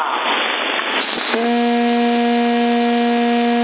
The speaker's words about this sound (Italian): C'è una tromba, ogni tanto stromba.